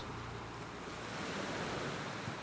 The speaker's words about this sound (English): Our man lies in the wet sand, the sound of waves breaking on shore.